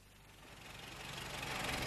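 A used MG car's engine idling, a low, steady rumble with a faint rattling texture that grows gradually louder over the two seconds.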